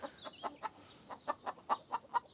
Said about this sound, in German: Schwerstarbeit, bei der sich die Hühner nur ungern stören lassen.